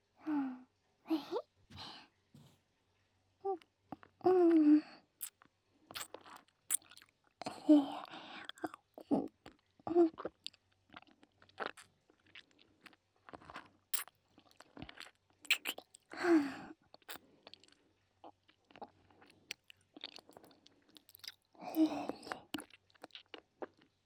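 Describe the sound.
Wet licking and sucking mouth sounds with a hard candy in the mouth come in many soft, irregular bursts separated by short pauses, faint and close, with occasional breathy whispers.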